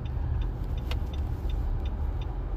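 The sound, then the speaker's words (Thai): A car turning, heard as a steady low rumble of the moving vehicle with faint, regular light ticking on top. “แป๊บหนึ่งนะรถเลี้ยว”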